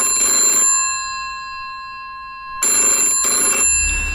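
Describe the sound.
A telephone bell rings loudly in a short burst, goes silent for about two seconds, then rings again in a quick pair of bursts.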